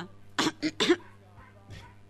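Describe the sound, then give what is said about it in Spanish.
A person coughing: three short, quick coughs in a row, fairly faint, followed by quieter low vocal sounds. “Cof, vuelvo a toser. Cof. Cof.”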